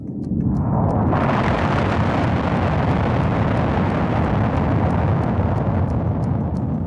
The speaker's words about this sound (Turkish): Bomba kentin üzerinde patladığında insanlık tarihinde yeni ve karanlık bir dönem başladı.